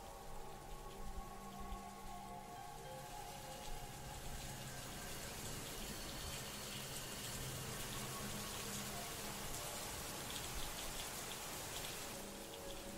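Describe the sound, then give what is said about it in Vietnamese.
Rain falling outside a village house at night, a dense, steady hiss of drops on surfaces that continues evenly without a break and stays moderately loud throughout. “Ngôi nhà chìm vào trong tăm tối, chỉ còn lại tiếng mưa rơi ở bên ngoài.”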